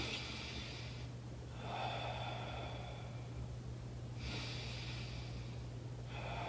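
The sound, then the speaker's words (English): Slow, deep breaths drawn in during a diaphragm breathing demonstration: long, airy rushes in a few steady cycles, fairly quiet, over a low constant hum. “So every time I take a deep breath in, I have this big, big, big, big belly.”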